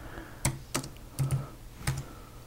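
Keys on a computer keyboard are typed in a few sparse, quiet clicks, spaced unevenly against a faint background hum.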